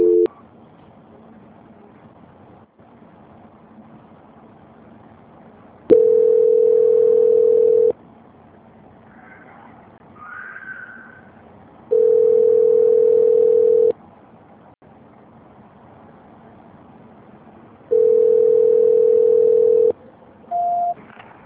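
Telephone tone sounding while a call is being transferred: three long, steady, mid-pitched tones of about two seconds each, separated by quiet gaps, then a shorter beep at the end.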